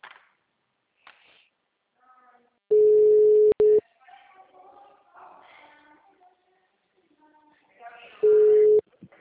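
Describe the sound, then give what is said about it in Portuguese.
A telephone ringback tone sounds as an outgoing call connects: two steady, mid-pitched electronic ring tones, the first longer than the second, with faint voices and low background murmur in the quiet gaps between. “tô ligando pra ela.”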